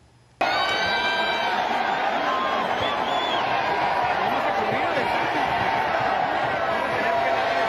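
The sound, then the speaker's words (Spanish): A crowd of about 20,000 fans at the Las Vegas Sphere boos after a Mexican singer cancels his show; a dense, sustained roar of many voices begins abruptly after a brief quiet moment and holds steady to the end. “Karim León dejó plantados a 20.000 fans que esperaban verlo en la esfera de Las Vegas y así lo abucheó el público.”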